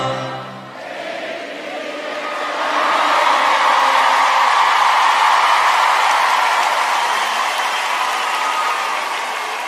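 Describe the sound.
Some 3,000 men in a concert audience sing together, forming a broad, sustained roar of massed voices that swells after a brief dip and then holds steady and loud before easing slightly.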